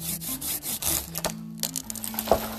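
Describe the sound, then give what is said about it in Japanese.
A lacquer tree being cut down: rough, rasping sawing strokes through wood over a low steady hum, ending in a sharper crack. “漆丸ごと倒しましたよ”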